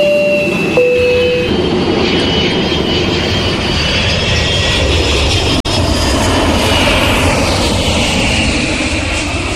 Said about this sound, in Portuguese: Permaneçam todos sentados e a postos. Torre, pedimos autorização para decolar.